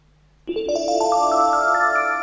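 Electronic ringtone of a telephone signalling an incoming call on a studio call-in line. After a brief quiet moment a bright, steady tone begins and climbs upward through a series of stepped notes.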